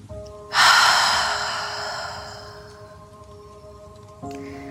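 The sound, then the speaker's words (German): A slow, deep breath during a relaxation exercise: a sudden breathy rush that swells quickly, then fades gradually over several seconds, heard above a soft, steady sustained drone. “Atme einmal tief durch die Nase ein und durch den Mund aus.”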